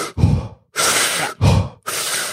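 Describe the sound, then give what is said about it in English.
Rapid, forceful hyperventilation before a breath hold: four loud breaths follow one another quickly with short pauses between them, alternating heavy, low-rushing exhales with airy, hissing inhales. “So this happens with hyperventilation. You know, just basically what you see a lot of people doing before they hold their breath, they...”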